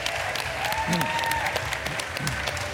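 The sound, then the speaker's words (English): The Glastonbury Festival audience gives a sustained round of applause, a dense and even patter of many hands clapping throughout. “Before we go, we'd love you to give a huge round of applause to our guests.”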